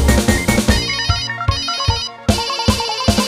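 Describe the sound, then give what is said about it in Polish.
A mobile phone ringtone plays as a bright electronic melody of quick repeated notes, loud and steady, with a short dip near the middle before it resumes. “Komórki dzwonią, dzwonią, dzwonią wciąż.”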